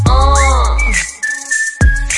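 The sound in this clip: Whistling in a pop song, a clear high tone that holds and steps between a few pitches over backing music, breaking off briefly before returning.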